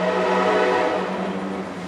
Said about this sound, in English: A train passes the historic courthouse, where Bryan